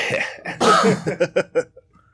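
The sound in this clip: Coughing from hot cigar smoke burning the throat: one heavy, rough cough burst followed by a few short, quieter coughs and throat clearing.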